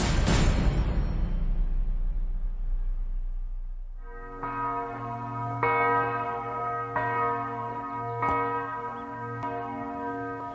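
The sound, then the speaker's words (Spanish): A church bell rings at the former Dachau concentration camp in Bavaria. One loud, rich stroke fades slowly over several seconds, then a steady run of evenly spaced strokes follows, each ringing with bright overtones. “Así suena una campana repicando desde el campo de concentración de Dachau.”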